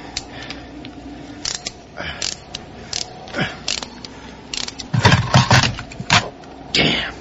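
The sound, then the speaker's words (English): Ratchet wrench turning on a hose clamp during cold-morning repair work: several short bursts of sharp mechanical clicks, the busiest stretch near the end, over a low background rumble. “Ratchet, please. Here.”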